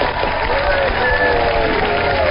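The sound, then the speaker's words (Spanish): Audience applause for a man on behalf of a group of children: loud, continuous clapping from a crowd, with voices mixed into the steady wash. “Vamos a darle un aplauso.”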